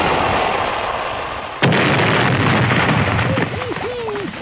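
Submarine torpedo firing explosion sound effect: a dense, sustained roaring blast that jumps abruptly louder partway through and stays harsh and steady, with a few short wavering tones near the end.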